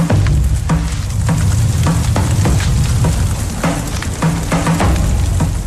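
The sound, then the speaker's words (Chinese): Tea leaves roast in a heated clay pot over a fire pit, producing a loud, continuous crackling sizzle punctuated by many dry clattering strokes as the leaves are stirred or tossed. “特制的陶罐在火塘上加热，放入毛茶，倒茶烘烤，茶叶中的湿气和杂质不断被排出。”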